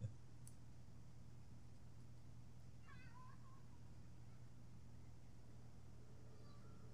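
A cat inside an apartment meows once, briefly and faintly, over a steady low hum that runs through the whole clip.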